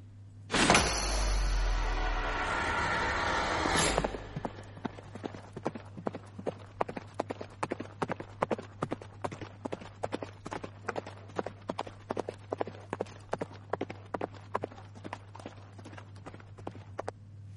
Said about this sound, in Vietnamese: Sau khi ra khỏi Tây Môn, hắn lập tức giật dây cương thúc ngựa.